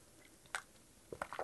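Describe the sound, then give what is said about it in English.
A faint sip of coffee gives a quick wet slurp, followed a moment later by a brief cluster of soft liquid sounds, with no talking. “Just a bit of a sip of the coffee.”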